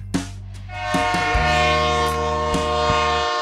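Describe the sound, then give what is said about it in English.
Train horn blaring as a train passes, its steady, harmonic blast holding for roughly two and a half seconds over a low, continuous rail rumble, with a few faint knocks mixed in. “you mind if we just wait until the train goes by?”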